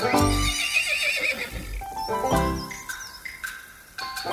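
A foal neighing in a fairy-tale story: several shrill, quavering whinnies that rise and fall across the stretch, with low snorting breaths between them.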